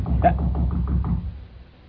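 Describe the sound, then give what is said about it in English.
Knocking on a door: a quick series of several firm raps, loudest at the start, then fading. “What was that? Someone's at the door.”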